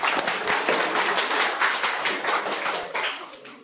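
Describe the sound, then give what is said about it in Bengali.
Applause from a group for a child who answered a quiz question correctly, many distinct hand claps in a brisk, uneven patter that thins and fades toward the end. “ওর জন্য একটা হাততালি দাও।”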